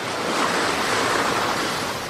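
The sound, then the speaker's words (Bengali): Ocean surf washing onto a beach at Puri in blowing wind, a dense, continuous roar of water and air with no voices. “ও কি আপনার পা যে ভিজে গেল ঢেউ যে এগিয়ে এসেছে সেদিকে অরূপবাবুর”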